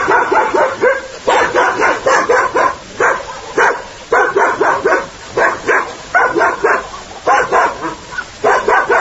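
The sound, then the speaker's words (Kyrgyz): A lone village dog barks at arrivals in rapid, loud bursts of sharp barks and yips, repeating in quick clusters with brief pauses between them throughout. “Бизди элде мурда жалгыз ит тосуп чыкты.”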